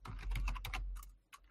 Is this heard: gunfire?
no